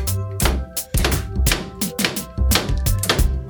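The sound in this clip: A household gas tank is struck again and again with a microphone stand in a quick, musical rhythm. Each hit makes a hollow metallic thunk with a ringing tone.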